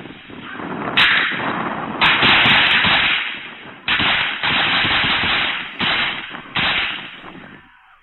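Gunfire from police during a shooting incident: about five loud, sharp bursts at irregular intervals, each trailing into sustained rough noise, on a muffled, narrow-sounding recording with no talk.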